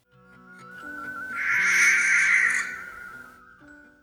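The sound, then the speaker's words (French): A barn owl gives a long, harsh, hissing screech that swells in loudness and then fades over a couple of seconds, with a steady low tone beneath and no voices. “Le rapace nocturne qui va venir se percher à la barre aujourd'hui a sans doute le cri le plus effrayant”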